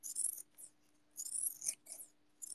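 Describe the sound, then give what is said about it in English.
Snipping and cutting sounds as a small piece is trimmed off: a few short, crisp, high-pitched bursts with pauses between them. No one speaks. “I'm just gonna cut off just a little tiny bit more here.”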